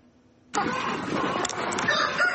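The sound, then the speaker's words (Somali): Many chickens cluck and squawk together at a small poultry farm in Wajir, Kenya. The loud, dense flock noise starts abruptly and continues steadily to the end. “Nurdin ayaa ka mid ah ganacsatada tirada yar ee ku dhaqda digaaga magaalada Wajeer”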